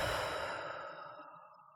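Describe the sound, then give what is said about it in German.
A deep breath drawn in through the nose during an abdominal breathing exercise: a single soft, breathy rush of air, fairly quiet, lasting under two seconds and tapering off. “Wenn du deine Hand auf deinen Bauch legst und so richtig tief einatmest, durch die Nase einatmest, dass sich deine Hand hebt auf der Bauchdecke.”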